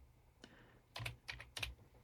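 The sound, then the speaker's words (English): Computer mouse clicks on a web link: several short, sharp, quiet clicks in an irregular pattern, some in close pairs, with no talking. “I'm going to click on the link to get more information because you can go see it.”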